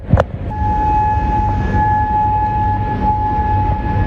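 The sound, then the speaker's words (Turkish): Air raid siren sounding overnight in Bahrain during a missile and drone attack. A loud, steady tone is held without a break over a dense, rumbling background, after a brief sharp burst at the start. “Bahreyn'de gece boyu hava saldırısı sirenleri çaldı.”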